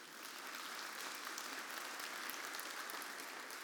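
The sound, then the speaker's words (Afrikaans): Audience applause at a church morning service as grandparents stand to be honoured; dense, even clapping holds steady and fairly quiet for the whole stretch with no voices. “Kom, ons geef hulle aan een klap.”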